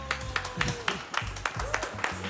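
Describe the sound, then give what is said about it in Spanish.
Audience applause in rhythmic, evenly spaced claps, roughly four per second, with crowd voices mixed beneath the clapping throughout. “Un gran, gran aplauso, ya que tenemos acá barra para Sofía Lefuloni y Pablo Ugarte.”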